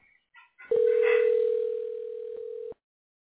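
A telephone line tone as a number is about to be dialed: one steady mid-pitched tone holds for about two seconds and then cuts off sharply, preceded by a few brief faint blips.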